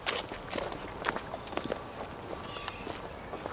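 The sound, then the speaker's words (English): Footsteps of people walking through a cemetery toward a gravesite, with many steady, soft scuffing steps over a constant outdoor background hiss. “And let's walk over to his gravesite.”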